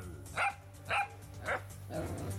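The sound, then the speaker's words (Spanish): Small dog barking: three sharp, evenly spaced yaps followed by a softer fourth sound, fairly faint over a low steady hum. “Este perrito es el pequeño guardián que está cuidándoles en esta casa.”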